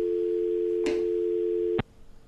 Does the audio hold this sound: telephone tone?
yes